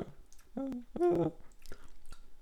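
Chewing while tasting raw cookie dough for vanilla crescent biscuits: a few soft, moist mouth clicks and smacks, mixed with brief hummed voiced tones.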